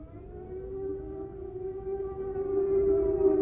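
An air raid siren wails during wartime as people flee to shelters, holding one sustained, steady tone that swells slightly louder toward the end.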